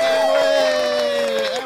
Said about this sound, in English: You get applause around here just for being you.